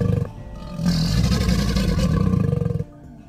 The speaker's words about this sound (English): It's a crocodile!